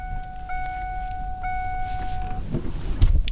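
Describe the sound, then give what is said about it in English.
A truck engine idles while warming up, a steady low rumble throughout. A sustained electronic tone rings over it for the first two seconds, then stops. “Well, we let the truck warm up here before we roll out.”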